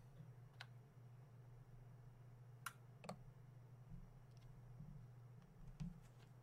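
Mouse clicks pressing a 'pick a winner' button on a computer, a few sharp, isolated clicks spaced irregularly over a low, steady hum, quiet overall.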